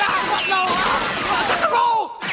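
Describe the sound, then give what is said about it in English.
Gunfire in a film action scene: a rapid fusillade of sharp cracks with whining, falling sweeps, dense and loud, thinning out near the end. “They're shooting! They're shooting! Somebody's shooting!”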